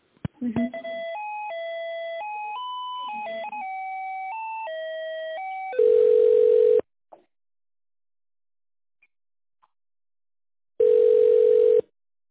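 Electronic telephone tones play while a call is being transferred: a stepping melody of steady beeps, then two long buzzing ring tones separated by silence.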